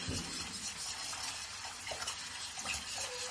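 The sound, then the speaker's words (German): Soup being stirred in a soup pot to keep lumps from forming, a steady soft scraping swish with a faint sizzling hiss underneath, quiet and continuous with no talk. “Und jetzt muss man es nochmal schön umrühren.”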